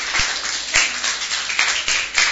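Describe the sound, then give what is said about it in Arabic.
An audience claps at a fairly modest level, a steady patter of many hands through the whole stretch with no cheering. “لا لا، دي مش سقفة جامدة خالص”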